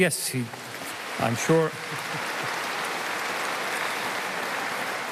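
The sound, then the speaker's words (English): An audience claps at a memorial commemoration. A voice speaks briefly, then steady applause rises and continues evenly at moderate loudness until the end. “I'm sure he's clapping back at you from the afterlife. So thank you for that.”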